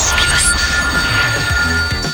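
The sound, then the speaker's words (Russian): A telephone rings with an incoming call to a radio studio during an on-air quiz game, giving a steady, bright electronic ring under other sound. “Мы в студии Европы Плюс, у нас есть телефонный звонок”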